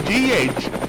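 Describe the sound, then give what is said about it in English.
A news helicopter gives a brief burst of dense whirring rotor noise with a broad rumble and a rhythmic chopping pulse. “This is Scott Spears looking down on the beautiful city of Marion from the News Chopper.”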